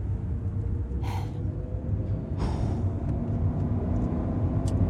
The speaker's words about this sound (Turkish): Hızlı gidiyor. Hızlı sürüyorum. Çok hızlı.